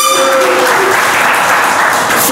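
Loud, steady audience applause mixed with crowd noise from a live show, sustained through the whole stretch without a break.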